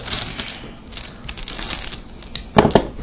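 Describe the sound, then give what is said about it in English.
Dice rolled during a tabletop role-playing game, heard as a run of light, rattling clicks that ends in a louder, brief clattering burst near the end. “I rolled a 4.”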